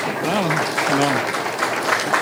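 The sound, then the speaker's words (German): Audience applause after a talk, steady clapping heard under a voice speaking at the start and continuing at an even level. “Noch mal einmal ein Kräftchen Applaus.”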